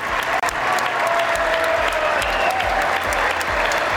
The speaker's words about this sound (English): That was December of last year when a joint session of Congress gave Zelensky a standing ovation during his first visit of the war.